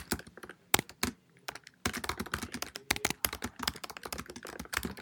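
Notes being typed on a computer keyboard: many quick, crisp key clicks in uneven bursts with short pauses, fairly soft, with no talking.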